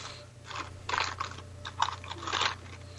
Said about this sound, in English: So, they're all in little baggies, too, so that's what that noise is.